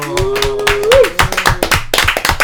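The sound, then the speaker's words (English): A round of applause with rhythmic hand claps, joined by a sustained tonal sound through the first second. “applause”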